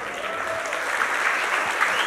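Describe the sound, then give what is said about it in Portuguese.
An audience claps to mark a birthday, a dense, even burst of applause holding steady at moderate loudness throughout. “E a gente vai depois bater palmas aí, porque hoje é aniversário de Carole Melo.”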